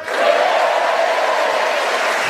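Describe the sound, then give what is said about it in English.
Lively theatre audience at the Opera House in Manchester cheering: a loud, sustained roar of many voices with whoops and applause, which swells quickly at the start and stays full and steady to the end. “And as you can hear, we have a vociferous, keen and animated Mancunian audience ready to enjoy themselves and cheer us on our way”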